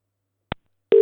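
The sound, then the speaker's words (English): Telephone call being placed: a single short click, a brief pause, then a steady single-pitched electronic line tone that starts abruptly and holds. “Let's call a number here. I told this person I was going to ring them a little bit later. Oh, well. They're going to get rang now.”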